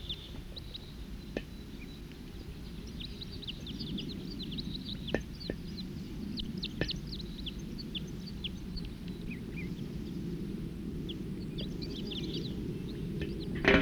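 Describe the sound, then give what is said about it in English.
Wild birds singing: many short, high chirps and trills scattered over a steady, noisy background, fairly faint throughout, with a few sharp clicks. “They're recording wild birds. Song.”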